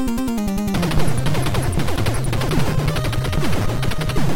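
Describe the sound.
Gunfire in a run-and-shoot video game: loud, dense volleys of rapid shots run throughout, layered over a low tonal backing.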